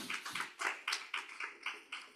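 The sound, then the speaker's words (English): Hand clapping from a church audience during a service: a quick, steady run of crisp claps, fairly faint, with no talking over it. “If you think it's exciting, just give the Lord a hand clap.”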